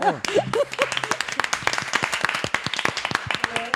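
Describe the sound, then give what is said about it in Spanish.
Brisk applause from a group of people at a tech event, with dense overlapping claps and voices calling out at the start and again near the end. “¡Un aplauso!”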